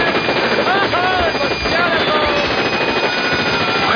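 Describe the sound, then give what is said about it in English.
Loud, dense submachine gun fire from an Israeli submachine gun, a rapid continuous burst with no clear pauses, with voices mixed in. “he reached into his suitcase and pulled out a Israeli submachine gun, and he sawed those two bunny faces in half”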